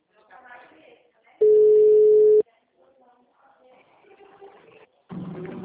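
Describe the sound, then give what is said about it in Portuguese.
A telephone ringback tone while a call is placed: one steady, mid-pitched tone lasting about a second, with faint muffled voices before and after. “Vou ligar para Sem Educação aqui.”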